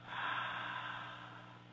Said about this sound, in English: So inhale, and then just breathe out.